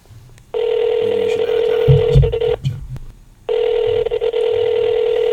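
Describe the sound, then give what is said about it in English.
Ringing tone of an outgoing call placed on an iPhone 8: two long, steady, mid-pitched tones separated by a pause of about a second, loud and even. “All right, it's ringing. Regular time on the iPhone 8.”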